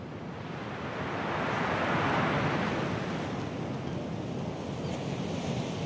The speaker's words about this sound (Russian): Волны моря выплескиваются на каменный берег.